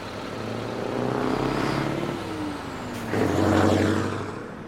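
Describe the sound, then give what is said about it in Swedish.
Vehicles drive in and out of a motorway rest area: a continuous rumble of car and truck engines, with a sharp hissing burst partway through as the traffic grows louder again. “Jag fascineras av den vackra balletten som fordonen som kör in och ut står för.”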